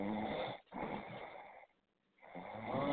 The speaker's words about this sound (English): Oh, you snoring.